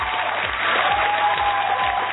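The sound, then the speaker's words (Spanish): Applause from a studio audience on a sports radio show, a steady continuous patter of clapping lasting the whole moment at an even, moderately loud level, with no voices. “Los aplausos también para Gustavo”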